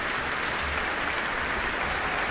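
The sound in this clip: Concert audience applause at a symphony orchestra performance in the Michael Fowler Centre as a performer returns to the stage, a steady, even wash of many hands clapping with no voices.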